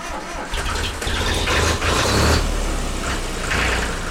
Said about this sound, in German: Die Kolonne aus den 24 Oldtimern fährt erst ein Stück durch Mössingen, dann weiter über Felder, Radwege und in den kühlen Wald. Auch wenn die meisten Kinder schon mal auf einem Traktor gesessen sind